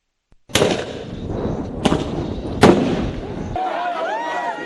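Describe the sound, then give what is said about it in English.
Police fire tear gas at anti-government protesters in the streets of Nairobi, Kenya: three sharp, loud bangs with rough noisy rumble between them, then a steadier noisy stretch with wavering tones. “The sounds of police using tear gas on protesters in Kenya.”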